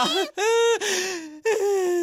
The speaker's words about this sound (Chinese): 别哭了，别哭